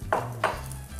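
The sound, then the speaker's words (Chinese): Minced ginger is stir-fried in a little oil in a pan, heard as two brief scraping stirs over a low, steady sizzle. “我们再下一点点一点油，然后现在我们再来炒姜末”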